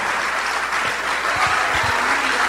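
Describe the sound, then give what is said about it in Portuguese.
Applause from an audience at an evangelistic church service as people come forward to give their lives to Jesus. Steady, dense clapping fills the whole stretch, with a few low thumps underneath. “Vamos aplaudir o Senhor Jesus por cada vida que está chegando.”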